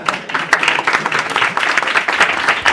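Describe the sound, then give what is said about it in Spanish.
Audience applause at a Superman talk event, a lively burst of many hands clapping whose loudness ripples and swells unevenly but stays strong through the whole stretch. “No sé por qué, pero un aplauso para Carmix, ¿por qué no?”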